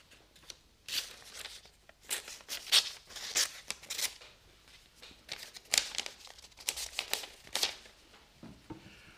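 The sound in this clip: Paper letter being unfolded and opened, with many irregular crinkles, rustles and crackles that rise and fall in loudness over a faint background.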